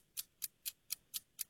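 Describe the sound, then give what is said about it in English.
A clock ticking as a quiz timer: six faint, crisp ticks at an even, steady pace over near silence. “All right, start the clock.”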